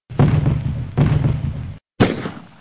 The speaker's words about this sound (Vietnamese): Bỗng 3 phát súng trường nổ đanh giòn.